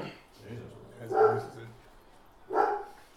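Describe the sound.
A dog barks twice in short, sharp bursts a little over a second apart, set among people talking during a tabletop role-playing game session.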